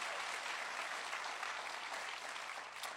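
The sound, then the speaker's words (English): A church audience applauds to welcome visiting members at an evening service. The clapping is dense and even, with a steady wash of many hands that keeps a nearly constant level throughout. “Can we put our hands together and just welcome them tonight?”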